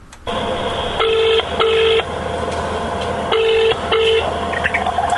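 A telephone number being dialed: four short touch-tone beeps in two pairs over a steady background hum, with no talk.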